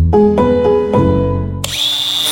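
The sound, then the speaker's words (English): A power tool motor runs loudly with a buzzing whine, pulsing through a few short bursts before settling into a higher, sustained pitch near the end. “Ooh, Milwaukee Angle Grinder. Makita Multi-Tool. Know your power tools?”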